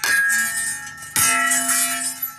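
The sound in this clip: A farmer's hand bell struck to scare off crop-raiding elephants: two bright metallic clangs about a second apart, each leaving a loud, shimmering ring.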